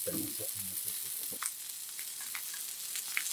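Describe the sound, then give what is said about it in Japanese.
Ramen sizzles in a hot stone bowl with a steady, soft hiss and scattered faint crackles and pops throughout. “石焼きしてるんですよね。石焼きラーメン。”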